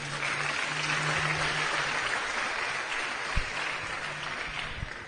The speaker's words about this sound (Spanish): Otro aplauso.